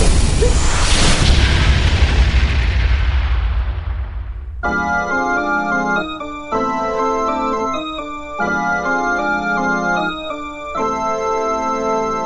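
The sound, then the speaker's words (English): A rigged flying carpet prototype explodes in a loud, deep blast whose roar decays over about four seconds. A steady, ticking, chime-like tonal pattern follows. “That prototype is rigged to explode if you take off with it.”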